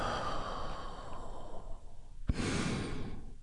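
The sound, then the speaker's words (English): A soft, deep breath drawn in and then released in a long breathy sigh during a guided healing breath exercise, faint over a quiet hiss, with a brief sharp snort-like intake midway. “You do that by taking a great big healing breath right now. Here we go. And release.”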